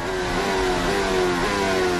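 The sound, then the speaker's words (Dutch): An Alpine Formula 1 car runs on track during a session, heading into a pair of corners. Its engine gives a steady, high, buzzing whine with strong harmonics and a few small pitch steps as the revs shift. “Terwijl ook de andere Alpine van Colapinto op de baan is op dit moment. Rijdt nu ingaan van bocht 8-9.”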